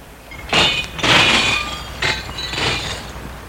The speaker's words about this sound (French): Et jette le cendrier dans la vitre de la fenêtre qui donne sur le bureau d'à côté.